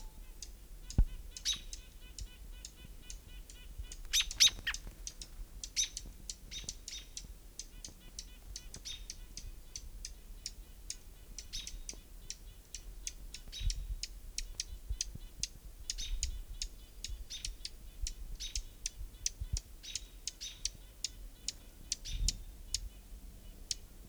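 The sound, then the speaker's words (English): Hermit warbler singing nearby, many short, thin, high-pitched chirps and song phrases scattered across a quiet background, mostly faint with a few sharper notes. “Hermit Warbler right nearby.”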